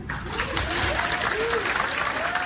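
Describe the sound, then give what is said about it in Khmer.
Colleagues of journalist Gershkovich applaud the news of his release: steady, dense clapping throughout, with a voice speaking over it. “សហការីលោក Gerkovich នាំគ្នាទះដៃសាទរពេលលើដំណឹងនេះ”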